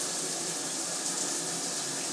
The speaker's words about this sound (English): I'm going to share it with you while I have a quick shower.